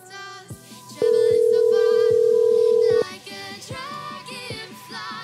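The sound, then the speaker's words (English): Telephone ringing while waiting for someone to pick up, heard as a single long, steady ringback tone of about two seconds over rhythmic background music. “Pick up the phone, lady.”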